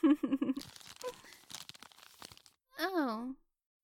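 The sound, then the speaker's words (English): Wrapping paper tearing and crinkling as a wrapped present is opened, a run of scattered rips and rustles between stretches of talking. “Okay. Fine. I'll stop shaking it and just unwrap it.”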